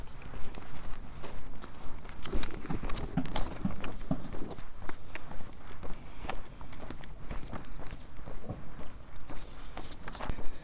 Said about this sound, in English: I'm walking along Coleridge Vale Road North.